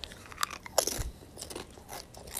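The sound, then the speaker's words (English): Crunching of a chip being eaten: a few crisp, brittle bites and chews in an irregular rhythm, fairly faint, with no talking. “as I munch on a chip here”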